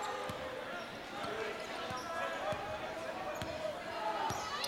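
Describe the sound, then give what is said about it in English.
A basketball is dribbled on a court during a game, with a series of dull thumps at uneven intervals. The bounces sound under continuous talking and general arena noise. “Tavares in front of us with that left-handed dribble.”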